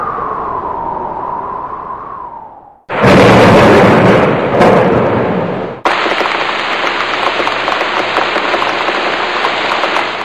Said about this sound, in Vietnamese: Chỉ trong nháy mắt, mưa to đổ ập xuống.